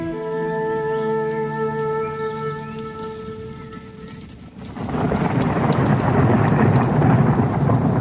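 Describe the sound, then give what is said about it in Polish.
A heavy rain downpour breaks out abruptly midway through, replacing an earlier steady humming tone with a loud, dense, continuous hiss of pouring water that holds strong to the end. “Kiedy wracam do samochodu, rozpętuje się ulewa.”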